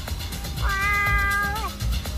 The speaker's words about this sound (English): So it is the cat.